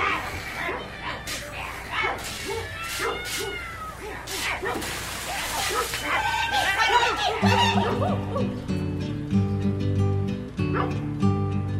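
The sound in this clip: A dog yelps, yips and whimpers in a busy run of short high cries and barks, before music with steady sustained tones takes over for the rest.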